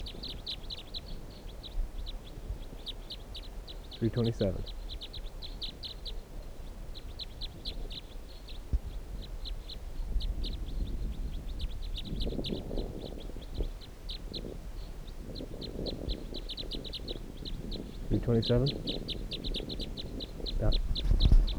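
A bird calls in quick series of high, thin chirps, repeated in clusters throughout, over a steady low background rumble.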